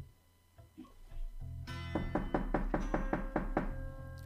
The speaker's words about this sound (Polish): Pukając drzwi.